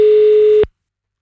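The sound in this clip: A telephone call fails to connect: one steady busy-tone beep sounds loudly at a constant mid pitch, then cuts off abruptly into silence.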